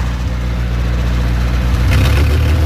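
A car with a two-litre engine, race-prepared in Paraguay with parts from Ciudad del Este, runs steadily with a loud, deep, continuous rumble that turns slightly rougher and brighter near the end.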